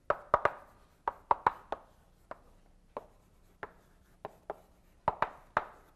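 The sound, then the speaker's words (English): Chalk writing on a board during a linear algebra lecture gives many sharp, irregular taps and short scratchy strokes, some in quick clusters and others spaced apart, with no talk. “So that's the main fact, and let me write it down.”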